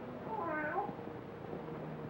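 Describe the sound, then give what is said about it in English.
A cat in a graveyard gives a single drawn-out meow that rises and then falls in pitch, heard over a steady low background hiss. “how often have I told you to keep that cat from desecrating my graves?”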